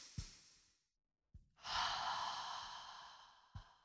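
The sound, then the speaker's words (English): A person takes deep breaths, giving a short airy breath, a brief silence, then a long, loud, airy breath lasting about two seconds, followed by another quick breath. “take some deep breaths together. Let's do that.”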